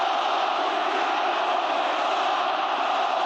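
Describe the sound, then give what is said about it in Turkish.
Beşiktaş football fans chanting for Mohamed Salah at a player's signing ceremony, a dense, steady roar of many voices that holds at an even level throughout. “Beşiktaşlı taraftarlar transfer gündeminde yer alan Mısırlı Yıldız lehine tezahüratlar yaptı.”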